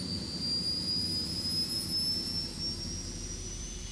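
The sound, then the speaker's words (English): A shuttle's maneuvering jets roar as it lifts off in a hangar: a steady, loud roar with a thin high whine that rises slowly throughout, and no voices. “He felt the hot backblast of the shuttle's maneuvering jets as it lifted off”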